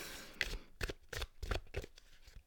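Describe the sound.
Playing cards being shuffled by hand, heard as several short, crisp papery bursts in a quick, uneven rhythm, fairly quiet and with no voices.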